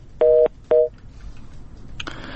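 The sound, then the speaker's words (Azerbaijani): Telephone tones after a call cut off: two loud, steady dual-pitch beeps, the first longer than the second, followed by faint line noise and a burst of hiss near the end. “Telefon əlaqəmiz yarıda kəsildi.”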